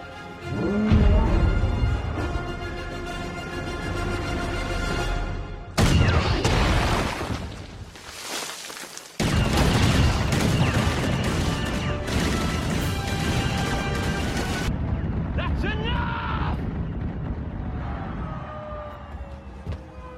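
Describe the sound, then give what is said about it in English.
Many guns fire together in a heavy, sustained barrage of dense, crashing blasts. There is a sudden short drop in loudness around nine seconds before the firing resumes at full force. “I want every gun we have to fire on that man. Do it.”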